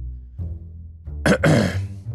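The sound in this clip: Throat clearing comes from behind the listener, a rough, raspy burst in two quick parts following faint low murmurs, standing alone without talk.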